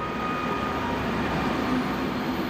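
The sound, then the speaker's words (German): Steady, dense rumble and hiss of a train arriving by rail in Munich on a Saturday morning. The noise stays level throughout with no talk, and faint tonal hums run beneath it. “Der Fachmann für Autos kam am Samstagmorgen mit dem Zug in München an.”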